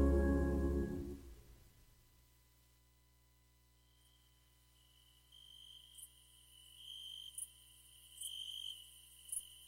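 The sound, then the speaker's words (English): Crickets chirp in the woods: thin, high-pitched chirps come in irregular bursts and clusters, faint overall, after a low sound fades away at the start. “I'm back, and so are the little crickets. Yes, here in the woods,”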